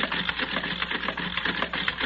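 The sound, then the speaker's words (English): A card-sorting machine is set running with steady mechanical whirring and a fast, uneven clatter that keeps going without a break throughout. “All right, I'll set it in the machine. There. The cards for all the men are already in place. Good. Now we'll set the machine running.”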